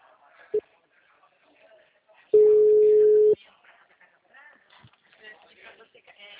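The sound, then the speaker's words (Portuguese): Telephone busy tone after a dropped call, a single steady mid-pitched beep lasting about a second, preceded by a short blip, with faint voices around it on the line. “perdão, caiu a ligação.”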